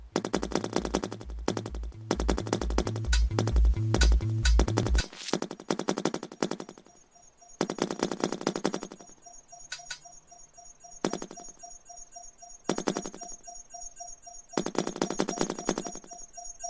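Weapon fire in a video game crackles in rapid machine-gun bursts, separated by short pauses, with a faint steady high tone between bursts.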